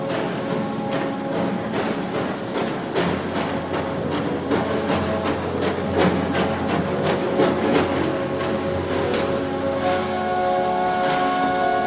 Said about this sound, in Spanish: El tren hace lentamente su entrada en un gran patio desierto.